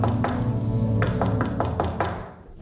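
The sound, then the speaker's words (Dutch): Knocking on a back door of a house, reached through gardens and a gate: a series of sharp, hollow taps in uneven rhythm over a low steady hum, ending with a brief quiet. “En achter klopte ik op een deur.”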